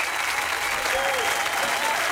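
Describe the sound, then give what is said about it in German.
Crowd cheering and applauding after a song, a dense, steady wash of clapping and cheers that holds at an even level for the whole short stretch. “dass so viele Menschen jubeln bei dem Song”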